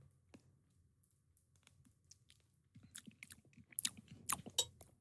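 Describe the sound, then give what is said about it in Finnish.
Faint, moist chewing of a spoonful of mämmi, the Finnish rye pudding, with scattered soft clicks at first and then denser smacking and squelching in the second half. “Mutta kyllähän meidän pitää saada tämä autenttinen maku, että mitä oh. tämä mämmi maistuu ihan tällaisenä. Mä tavallaan tykkään tästä koostumuksesta, koska mä tykkään vanukkaista mm. aika paljon.”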